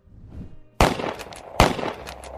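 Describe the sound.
Gunshot sound effect on a news-style show about shootings: two loud, sharp cracks with decaying tails at an even interval, and a third shot starting at the very end, after a quiet low rumble.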